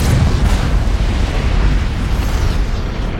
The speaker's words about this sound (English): As the planet explodes.